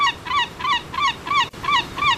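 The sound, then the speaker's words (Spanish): Real seagull squawks, not a person's imitation: a rapid series of loud, harsh, nasal calls, each arching up and then down in pitch, repeated at an even rhythm with brief gaps and no talk. “Este es el graznido de la gaviota. El auténtico.”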